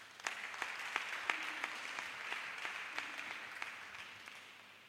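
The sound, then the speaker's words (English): An audience at an Easter convention claps in a steady rhythm, many sharp, evenly spaced claps ringing out over a soft wash of scattered hands, faint overall and slowly tapering toward the end. “Clap for Jesus.”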